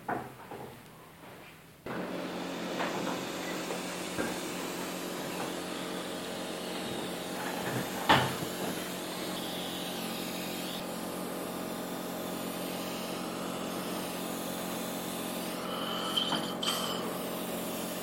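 A motorised patient chair being lowered gives a steady, humming motor drone that starts abruptly after a brief quieter moment and runs evenly to the end, with a couple of faint clicks along the way.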